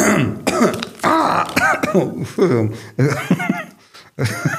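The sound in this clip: Throat clearing and coughing from one person: many short, rasping, partly voiced bursts in a quick, uneven series. The sounds are fairly loud and no speech is heard.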